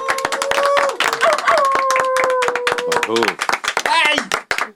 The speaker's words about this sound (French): Ouais, on peut applaudir. Bien joué.